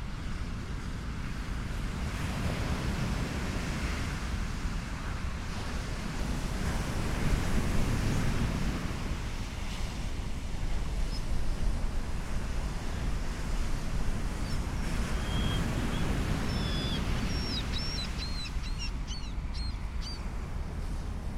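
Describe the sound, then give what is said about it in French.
Sea waves break at the shore, making a steady, rumbling wash of surf mixed with wind. The roar swells and eases slightly over time. “Je réussis finalement à aller jusqu'au bord de la mer.”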